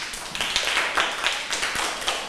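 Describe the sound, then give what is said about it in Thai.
Students in a classroom clap for a classmate who has just presented a problem and its solution. The clapping is fairly faint, with quick, uneven claps that come in small bursts throughout. “ปรบมือให้กับเพื่อนที่นำเสนอปัญหานะคะแล้วก็วิธีการแก้ไขปัญหาให้เพื่อนด้วยค่ะปรบมือให้เพื่อนหน่อยค่ะ”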